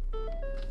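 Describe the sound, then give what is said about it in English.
A car's low fuel warning chime gives a quick few soft electronic tones that step up and then settle at a mid pitch, clear above a steady low engine rumble. “That sound you just heard was me needing gas.”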